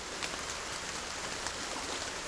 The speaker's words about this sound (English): In a garden near where the Mackenzie River rushes out of Oregon's Cascade Mountains, a downpour pummels crimson-flowered currants, salmon berries, red columbine, and native rhododendrons